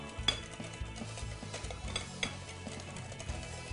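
Crepe batter being mixed in a bowl: faint, rapid scraping and light utensil clinks that repeat in a steady, busy rhythm.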